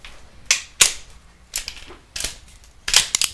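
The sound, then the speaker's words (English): Toy cap guns fire a series of sharp, crackling pops: about seven bright snaps spaced irregularly, with a quick cluster at the end, alone with no talk. “All right, that's enough. That's enough gunplay.”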